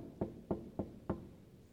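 Knocking on a door: four evenly spaced, dull, low knocks, each a short thud with a brief tail, heard alone against quiet background hiss.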